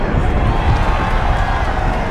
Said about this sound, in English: A group cheers a few meters away at an avalanche that can be seen rolling down mountains in the distance.